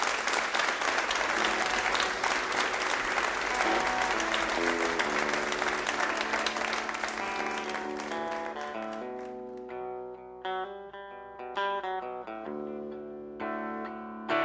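An audience applauds a folk band introduced on the Red Barn stage at a concert, with thick, even clapping for about eight seconds. The applause then thins out as the band's pitched instrument notes take over.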